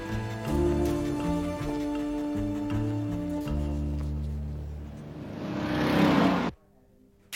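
A car arrives in a dubbed film scene: a steady engine hum with low tonal layers that swells into a louder rush near the end, then cuts off abruptly into near silence.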